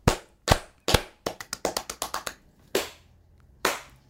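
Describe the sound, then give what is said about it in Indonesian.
Hand clapping out of sync: about a dozen sharp, uneven claps with no voices, a few spaced ones at first, then a quick ragged cluster, then two last isolated claps. “clap, clap, clap, clap.”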